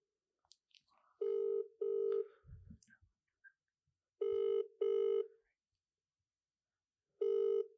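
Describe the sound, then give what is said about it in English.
Ringback tone of an outgoing telephone call: two double-pulse rings and the start of a third, each pulse a steady mid-pitched electronic tone, with silence between the pairs. “We're calling right now.”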